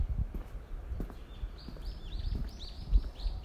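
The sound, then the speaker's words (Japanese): Birds chirp in a busy, bright chorus of many short, quick high notes. The chirps are fairly faint and overlap with scattered low thumps and rustling noises. “なんかめっちゃ鳥が鳴いてる。おお、めっちゃ鳥が鳴いてる。”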